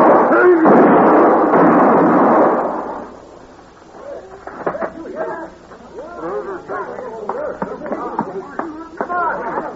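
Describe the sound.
Gunshots in a gunfight from a Western radio drama: a loud, booming burst of blasts that lasts about three seconds, then a man starts talking.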